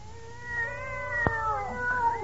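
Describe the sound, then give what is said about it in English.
A kitten gives a long, wavering, high meow that dips and rises, with a sharp click partway through, over a faint low hum. “You want the kittens? Have you got the 10 of them?”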